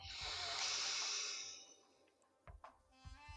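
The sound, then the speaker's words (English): A person takes one long, airy inhale during a breathing exercise. The soft hiss swells, then fades away, followed by a few faint, brief knocks. “I forgive. Inhaling. I forgive. I forgive. And again, inhale.”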